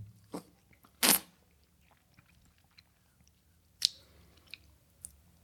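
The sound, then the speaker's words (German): Ice cream being licked and eaten: a few isolated wet smacks and crunchy mouth noises, one bite standing out louder. The sounds are separated by quiet gaps. “man kann uns an unseren Lutschgeräuschen erkennen.”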